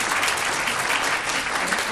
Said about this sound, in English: And members, usually we don't have a applause meter, but we'll have an exception today.